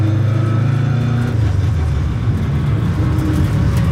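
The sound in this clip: Rally car engine running while driving to a roundabout: a loud, steady, low droning hum with strong harmonic tones that shift slightly in pitch, heard alone without talk.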